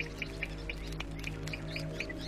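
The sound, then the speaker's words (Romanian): A bird sings in a stream of short, high chirps repeated at a fairly even pace over a steady low hum. “E o pasăre. Și păsările cântă.”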